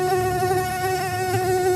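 A fly buzzes in a steady, continuous drone that holds one pitch with a bright, reedy edge for the whole stretch, fairly loud and with no voices over it.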